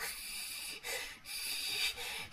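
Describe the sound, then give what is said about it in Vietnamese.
A voice imitates heavy, raspy breathing, giving a few long, breathy hissing exhales separated by short pauses, rough and faint throughout. “thầy nghe rất là rõ tiếng thở của người đó nó khì khì khì,”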